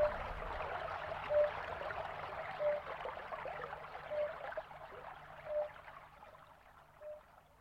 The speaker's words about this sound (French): La rivière au matin, brume légère sur l'eau.